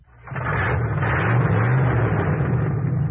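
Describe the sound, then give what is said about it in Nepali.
Engine noise of a car approaching on the road, a low rumbling hum that swells in quickly after a brief quiet start, then holds steady and fairly loud. “ऊ त उताबाट गाडी आउँदैछ बरु गाडी रोकौँ”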